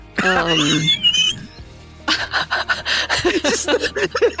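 A dying wheeze: a thin, whistling breath, then a long run of rapid, raspy panting gasps that pulse irregularly.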